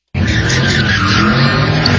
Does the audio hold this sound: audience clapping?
no